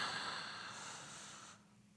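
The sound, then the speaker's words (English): A deep breath in, demonstrated during a guided breathing practice: one soft, steady airy hiss lasting about one and a half seconds before fading away, quiet and alone. “You begin by taking a deep breath in like this.”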